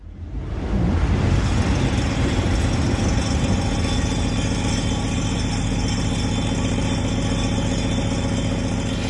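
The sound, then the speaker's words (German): A train rushing past in the sound art piece Peppernder Tisch. A loud, continuous heavy roar and rumble quickly swells up at the start, then holds steady throughout. “Peppernder Tisch heißt das Ganze und ich glaube, wir haben da die Bahn, die da vorbei brettert, gehört.”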